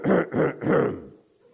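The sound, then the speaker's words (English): A man imitates a distinctive, exaggerated throat clearing: three loud, gravelly rasping bursts in quick succession, then the sound fades away. “He would clear his throat. And it wasn't just a normal clearing of the throat. No, that wouldn't suffice.”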